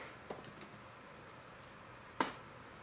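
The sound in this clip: Computer keyboard typing: a few soft, sparse keystrokes tap faintly, and one sharper, louder key click comes near the end over a quiet steady hiss.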